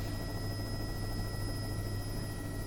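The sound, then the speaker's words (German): Spacecraft engines run as power is diverted from life support, a steady low droning hum with thin, high whining tones above it, holding an even level throughout. “Ich leite jetzt das Energieniveau von den Lebenserhaltungssystemen auf die Triebwerke um.”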